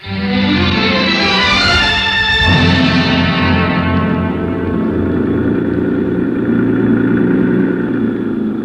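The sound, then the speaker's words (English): A jeep engine roars as a young Mexican driver speeds through the capital with the accelerator wide open. The engine drone holds loud and continuous for the whole stretch, with no voices. “The jeep driver was a young Mexican boy who'd been brought up in the best and wildest chauffeuring traditions of the capital. He knew only one way to drive, with both accelerator and horn wide open.”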